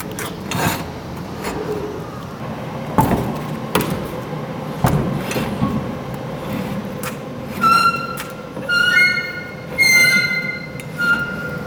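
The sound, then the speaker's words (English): A heavy metal door, 8.4 meters and weighing just under a ton, grinds and rumbles as its wheel is turned, with scattered clunks and then a loud, high metallic squeal that swells in several waves toward the end. “It weighs a little bit less than 1 ton. Yes. And you open it by turning this wheel. Yes, yes. I'm going to open it.”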